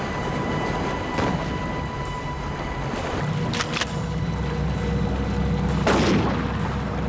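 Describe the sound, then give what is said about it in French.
Gunshots fired at a floating cooler to sink it: a few dull, muffled reports spread over several seconds, barely rising above a steady, noisy background rumble. “faire couler la glacière en tirant dessus à l'aide de son arme à feu”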